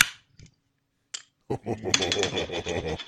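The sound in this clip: An opener gun pops the caps off pop-top beer bottles with a few short, sharp cracks separated by silence, followed by people talking.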